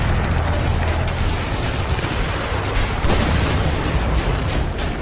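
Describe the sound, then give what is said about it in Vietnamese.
Heavy artillery cannon fire roars at a fortified stronghold during a March 1954 battle. A dense, continuous, loud rumble, with no separate blasts standing out, fills the whole stretch. “Mười bảy giờ, cứ điểm Độc Lập rung chuyển trong tiếng ầm ầm của đại bác.”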